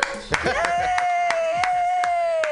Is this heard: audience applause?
yes